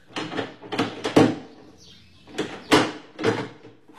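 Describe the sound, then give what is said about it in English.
A door is unlocked and opened: a few sharp clunks and rattling knocks, loud and clustered, with a short quiet gap before further bumps of the lock and door. “And you, young lady, unlock that door and let the inspector out. I will, officer, I will.Just as soon as I can.”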